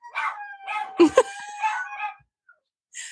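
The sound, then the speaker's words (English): A dog howls in short, wavering, harmonic bursts with a couple of sharper accents near the middle. A brief high whine follows after a pause. “Sorry for my dog's howling interlude.”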